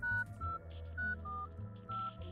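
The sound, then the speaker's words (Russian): Mobile phone keypad tones beep as keys are pressed hurriedly with a cold-numbed finger, a few short, irregularly spaced electronic beeps at steady pitch. “торопливо потыкала в клавиши мобильника окоченевшим пальцем и прижала холодную трубку к уху”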